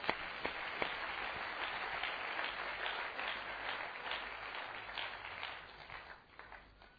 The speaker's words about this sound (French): Est-ce qu'on peut acclamer très fort pour le Seigneur?